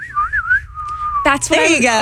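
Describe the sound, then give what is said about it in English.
A person whistles a short, wavering tune in a clear high tone that settles into a steady held note, then a voice follows. “you can whistle. Can you do it?”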